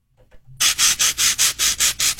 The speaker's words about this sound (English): That is the sound of styrofoam rubbing on styrofoam.